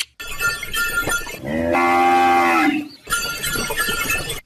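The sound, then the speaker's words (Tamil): Cattle mooing beside a bullock cart headed to town: a drawn-out, low, harmonic moo lasting over a second, set between stretches of steady rattling noise, with no voices. “மாட்டு வண்டியில வர்றது நம்ம கருத்தமுத்து தான்.”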